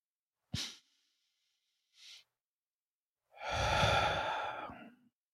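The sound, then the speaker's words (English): A deep breath in and out: a sharp, brief breath, a faint short one, then a long, loud, slightly voiced exhale that trails off like a sigh. “go ahead and take a big exhale. Let's take a big inhale to breathe in new life.”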